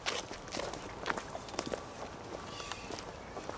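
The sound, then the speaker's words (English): Footsteps of people walking across cemetery grounds toward a gravesite, a loose, irregular series of soft scuffing steps over faint outdoor ambience, fairly quiet with no clear talking. “And let's walk over to his gravesite.”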